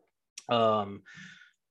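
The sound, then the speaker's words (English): A person yawns from tiredness: one drawn-out, voiced yawn that opens abruptly, holds a steady tone, then trails into a short, breathy exhale. “I do apologize for continuing to yawn. I'm just getting really tired.”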